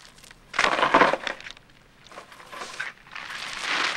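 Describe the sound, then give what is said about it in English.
Crisps crushed messily by hand straight into bread for a sandwich, heard as three crackly, crunching bursts of moderate loudness with short pauses between them. “She then crushes up some crisps messily directly into the bread.”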